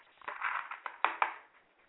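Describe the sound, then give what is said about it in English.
Playing cards pulled from a deck during a card reading: a soft papery rustle, then a few crisp flicks and snaps, quiet and without talk. “I'm going to pull some cards, and I'm going to see what's going on here”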